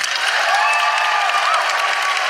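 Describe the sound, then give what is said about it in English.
An audience at a live show breaks into a big round of applause, a thick, steady roar of clapping and cheering that stays loud throughout. “can I please have a huge round of applause for Chanel Miller”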